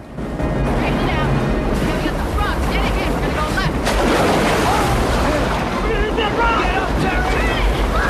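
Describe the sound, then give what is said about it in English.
A boat smashes through churning river rapids, plunging into a wall of water. Loud, constant rushing roar of turbulent water with splashing and wind buffeting throughout. “They reach the first set of rapids. Oh, man. They smash into a wall of water. They bob safely through the churning waters.”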